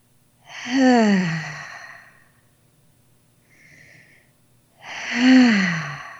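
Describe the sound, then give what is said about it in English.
Two long, deep breaths, each a loud voiced exhale that sinks in pitch like a sigh, with a much softer breath between them. “So taking a deep breath in and out right now. Three times, let's do it.”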